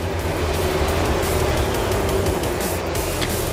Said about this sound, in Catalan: La volta d'escalfament, la primera cursa de la temporada a MotoGP.